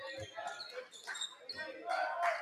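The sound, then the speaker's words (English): A basketball is dribbled during a game, with a few dull, low bounces under a commentator's voice and background crowd noise. “Hesitation dribble.”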